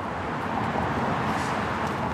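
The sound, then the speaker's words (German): Quiet traffic on a four-lane street in central Shanghai, heard as a soft, continuous wash of road noise. It stays even, with no distinct horns, engines or passing vehicles standing out. “Eine vierspurige Straße im Stadtzentrum von Shanghai. Was sofort auffällt, wie leise der Verkehr ist im Vergleich zu europäischen Städten.”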